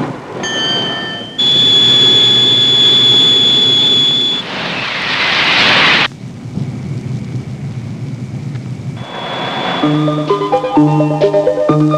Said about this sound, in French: TGV très grande vitesse 001.